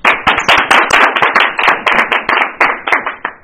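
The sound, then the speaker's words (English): An audience claps, with many separate hand claps in an uneven, lively patter, each one sharp and distinct rather than blurring into a roar, continuing throughout. “So that do you want us to clap for you, Lauren? Yes, I do.”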